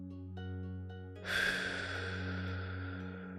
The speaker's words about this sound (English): Now, I want you to exhale all the air from your mouth before we start this practice.